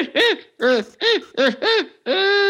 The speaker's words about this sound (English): Those owls that I had. Found them.